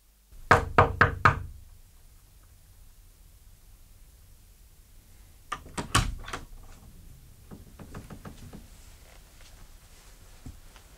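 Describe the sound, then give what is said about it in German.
Knocking on a door: a quick run of four firm knocks, then silence. After the pause comes another cluster of knocks, followed by several lighter, scattered taps. “Ich habe geklopft, Sie haben offenbar nichts gehört.”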